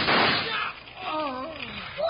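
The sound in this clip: A single sharp gunshot effect from a Western radio drama bursts loudly at the start and decays quickly. A man's voice then speaks.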